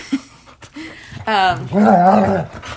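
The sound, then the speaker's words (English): Dogs getting worked up, with excited whines, yelps and a few longer pitched cries that rise and fall, the loudest bursts coming in the second half. “these dogs Christ. Are getting crazy.”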